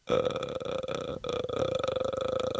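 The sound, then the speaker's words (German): A voice imitates the creaking, gravelly rattle of the ghost from the Japanese horror film The Grudge: a long croak of rapid pulses with a brief break about halfway, then continuing. “Das war dieses Geräusch bei The Grudge.”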